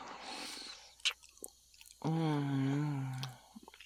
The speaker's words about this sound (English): Oh, I wonder if it tastes good too. Such an interesting taste.